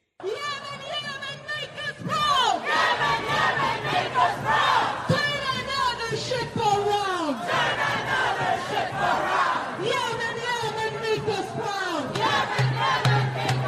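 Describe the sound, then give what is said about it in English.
Protesters in a large crowd chanting and shouting, with many voices in a dense, continuous roar of rhythmic yelled phrases that stays loud throughout. “That is just some of the sound of these vicious protests that are taking place in many major cities.”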